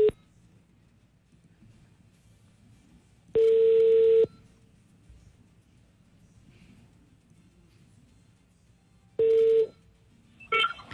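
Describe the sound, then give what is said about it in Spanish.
A telephone number is dialed, producing three loud, steady electronic tone bursts separated by long quiet gaps with faint low background noise. “Bueno, marquemos a este oyente.”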